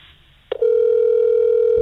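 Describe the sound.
A telephone call ringing before going to voicemail: a soft click, then a loud, steady electronic tone that holds unchanged to the end.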